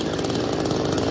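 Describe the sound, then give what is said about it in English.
A chainsaw run by rescue workers cutting a tunnel through the remains of a high-rise apartment building that collapsed in an earthquake. A loud, steady buzzing engine drone fills the whole brief moment. “Now, that's the sound of rescue workers using a chainsaw to cut a tunnel through the remains of this high-rise apartment building that collapsed.”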